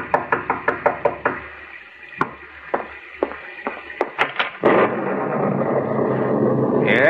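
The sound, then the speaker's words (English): Knocking on a door: a rapid run of sharp raps, then a few slower, scattered knocks, before a steady broad wash of noise takes over. “And as you sit by your fireside, you're startled by a knock on the door.”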